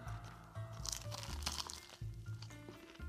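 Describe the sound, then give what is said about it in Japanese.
Bites into a baked banana pastry with a caramel-coated surface and a dense, sweet banana filling give a few faint crisp crunches and crackles over a low background hum. “この中のバナナの生地もこうしっかり重いというかで甘みもかなりギュッと効かせていてこれはお茶を呼ぶうまい菓子ですねいやさすがだなちょっともう一口だけいただきますね”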